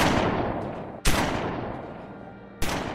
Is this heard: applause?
no